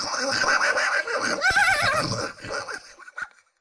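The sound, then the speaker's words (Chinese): A horse whinnies loudly with a wavering pitch amid the din of a large troop of horses in the distance, a dense, busy rumble that thins out and fades near the end. “就在这个时候，突然间听到远方一大片马蹄之声，”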